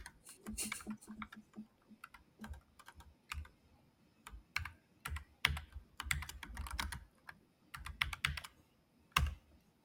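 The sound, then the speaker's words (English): Typing on a computer keyboard while writing a Python 3 file: many quick, irregular keystroke clicks arrive in uneven bursts with short pauses between them, fairly soft and crisp. “It's a Python 3 file. If I can type, it would be great.”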